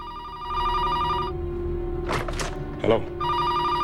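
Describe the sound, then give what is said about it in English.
A telephone rings at a hospital emergency room reception desk: two bursts of bright, steady electronic ringing, the first longer and the second starting near the end. Brief voices fill the gap between them. “stares at the phone on the reception desk before finally answering it.”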